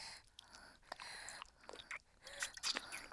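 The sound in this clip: Someone bites into and chews a juicy, sour fruit, making faint wet crunches and smacking chews in a few short bursts, with the bites growing louder toward the end.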